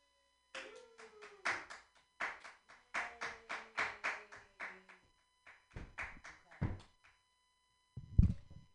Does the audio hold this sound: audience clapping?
yes